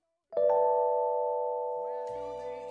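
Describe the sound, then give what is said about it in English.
Six notes from a sung vocal line sound at once as one sustained chord. It starts with a clean attack and holds steady, fading only gradually over a couple of seconds. “If you were to play those six notes that he sings in the word rings all at once, it would sound like this.”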